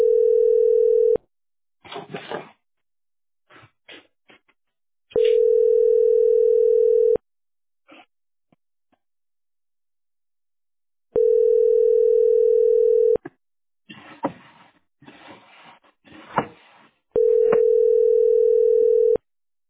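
A telephone line tone sounds while a call is being placed: four long, steady, mid-pitched tones, each about two seconds, separated by gaps filled with clattering handling noise and brief rustles.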